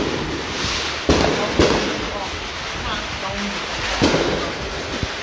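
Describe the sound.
A fireworks finale goes off outside: a few sharp, loud bangs burst out over a constant rumbling, crackling background, with irregular gaps between them.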